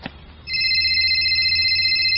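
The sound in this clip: A mobile phone rings with a call from mom. After a brief click, a steady electronic ringtone of bright, high sustained tones begins and holds at even loudness to the end.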